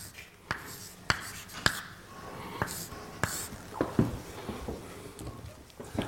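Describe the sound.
Writing during a mathematics lecture: quiet, irregular scratchy strokes with a few sharper taps and faint background noise.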